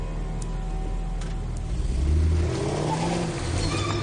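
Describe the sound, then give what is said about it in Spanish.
Car engines rumble as a red car and a grey car drive into a warehouse, a steady low hum that swells into a louder, deeper growl midway before easing back, with no voices. “El coche rojo accede a la nave y el conductor del gris hace lo mismo”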